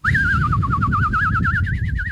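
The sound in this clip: A person imitates birdsong by whistling one sustained, rapidly warbling trill that drifts slowly upward in pitch. It is loud and clear over a low rumbling background.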